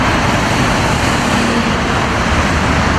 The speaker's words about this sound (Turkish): D100 karayolunda araçlar ilerlemekte zorlandı. Trafik dakikalar ilerledikçe arttı.